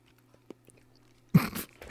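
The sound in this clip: Someone biting into and chewing food: a few faint ticks and clicks over near silence, then a sudden loud crunchy bite followed by wet, rustling chewing.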